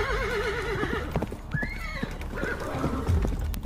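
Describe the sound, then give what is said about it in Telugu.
Horses being ridden at a gallop in a desert at night, with rapid, irregular hoof thuds, whinnying and wavering cries over a constant windy rush. “ఉన్నట్టుండి ఒక్కసారిగా గుర్రాల సవారీ sound వినపడగానే రూప”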